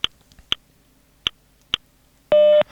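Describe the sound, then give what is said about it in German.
A telephone speaking-clock time signal: four sharp, evenly spaced ticks followed by one short, steady electronic beep, clean and alone. “Beim nächsten Ton ist es 12:14:00.”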